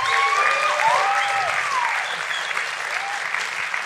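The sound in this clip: An audience applauds to welcome a guest speaker at a gathering that turns to prayer: dense, steady clapping from a crowd, loud throughout and easing slightly after the first couple of seconds.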